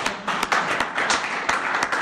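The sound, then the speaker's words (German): An audience applauds a participant at a gathering, with distinct individual claps standing out over a light, uneven layer of clapping hands at moderate volume. “Schön, Daniel, dass du dabei bist. Ein Applaus dafür, Daniel.”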